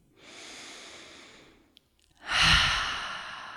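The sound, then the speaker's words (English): A deep breath with no talk: a long, soft, airy inhale, a brief silence, then a louder, breathy exhale that slowly fades. “Let's take a deep breath just to let those words sink in.”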